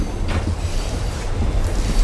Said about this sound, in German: Weißt du, wie lang unser Zug ist?